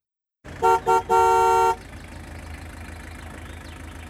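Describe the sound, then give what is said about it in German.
A car horn honks in the distance with two short toots and then one longer blast, followed by a low, steady engine hum that continues alone to the end. “pausiert ihr Tun abrupt, weil von fern ein Auto hupt.”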